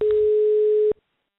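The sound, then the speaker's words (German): A telephone ringing tone from an outgoing phone call: one steady, clear beep held for about a second, then cutting off into silence. “Gatterer ruft drei Tage vor den Landtagswahlen Saatdirektor Mariano Vettori an”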